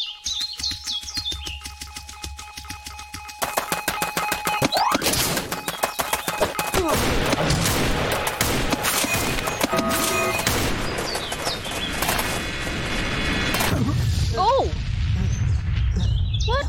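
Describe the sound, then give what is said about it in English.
A big rocket fires in a shooter video game. After a few quieter seconds a loud, broad roar bursts in and holds for about ten seconds, full of crackling bursts, then cuts off abruptly. Chirpy game tones sound around it. “That sounds like a really big rocket.”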